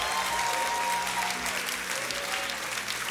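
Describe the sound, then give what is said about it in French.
A church audience gives a standing ovation, with steady, dense applause that holds evenly throughout and stays fairly soft. “Est-ce qu'on peut pousser une vraie ovation pour le roi des rois, s'il vous plaît?”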